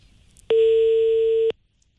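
A single steady telephone tone sounds while a call is placed to a BYD dealership's after-sales manager. It lasts about one second and is even and clear against a quiet background.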